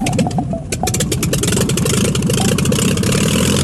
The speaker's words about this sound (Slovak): Ja roztočím vrtuľu a ty len pridaj plyn. Zľahká plynule.